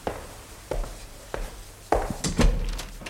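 A door is opened in a German radio crime play. Several dull thuds and knocks land at uneven intervals, with the last ones coming closer together, and no voices are heard.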